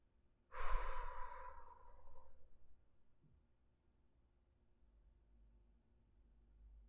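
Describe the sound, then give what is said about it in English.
A single long exhale through the mouth during a breathing exercise: a soft, breathy rush of air that fades away over about two seconds, followed by near silence. “Exhale through the mouth at 2, 3, 4, 5, 6.”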